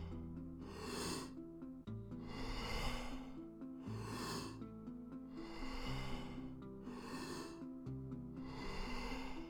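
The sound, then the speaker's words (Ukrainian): Steady breathing in and out with no pause between breaths during a breathing exercise, a few long, airy breaths rising and falling in a regular rhythm, faint and heard over sustained tonal music. “Продовжуй без паузи між вдихом і видихом.”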